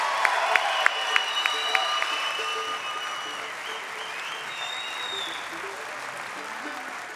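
Audience applause and cheering at a live concert at the Ryman: a dense, steady wash of clapping with a few sharp high whistles early on, holding at even strength for several seconds.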